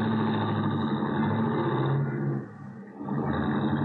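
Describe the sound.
A taxi cab pulls away from the cab stand outside a main office with a steady, low engine drone. The drone dips briefly, then swells back up.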